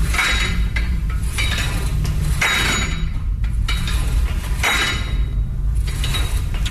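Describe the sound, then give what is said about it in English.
A weight machine in use during a gym workout gives off a few sharp metallic clanks and clinks over a steady mechanical rumble, with no voices. “The correct answer is the gym equipment. Oh, yeah. Okay. That's a weight machine.”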